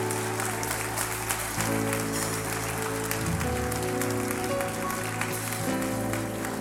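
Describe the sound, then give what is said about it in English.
Audience applause in a live-streamed service, welcoming online viewers. A dense, continuous clapping sound holds steady for several seconds over sustained low tones. “So y'all put your hands together. Just let them hear you. Give them a big welcome.”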